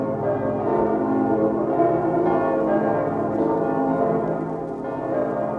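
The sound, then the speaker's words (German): Church bells of a large church in Hamburg ring in Christmas. Deep, overlapping tones sound steadily and loudly, with rich, sustained resonance and no voices. “Die Glocken der Michaeliskirche in Hamburg.”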